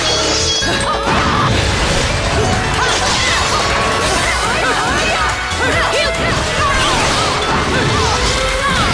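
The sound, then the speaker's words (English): Sword slashes and impacts in a video game as a player cuts down angel enemies: dense, rapid metallic whooshes and crashing hits pile up continuously, loud, over a busy game soundtrack. “This sword is so good at killing them that I can barely even do the torture attack before they already get killed.”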